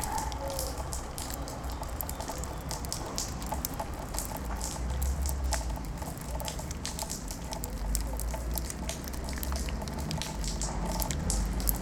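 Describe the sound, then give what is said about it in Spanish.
Steady rain pattering continuously, an even wash of hiss dense with fine, crackling drop impacts. “Lluvia.”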